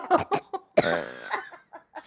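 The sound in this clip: A person coughs after inhaling a bug outdoors, with a few short, sharp coughs around one longer, strained, voiced hack.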